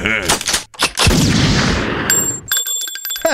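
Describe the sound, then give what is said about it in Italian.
A single loud gunshot cracks out as a broad blast with a long rumbling tail, and high ringing tones follow it. Brief voices are heard before and after the shot. “Mi hai sparato, infame.”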